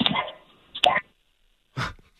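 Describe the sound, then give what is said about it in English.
A dog that wants to be let out gives a few short, sharp barks and whimpers, separated by brief pauses. “Dog wants out.”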